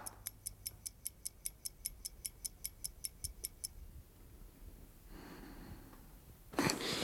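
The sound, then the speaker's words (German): A clock ticks in a fast, even rhythm, many crisp, bright ticks that stop partway through, followed by soft breathing and a brief, louder rustling burst at the end. “Was ist das? Was soll denn das? Verflixte Uhr.”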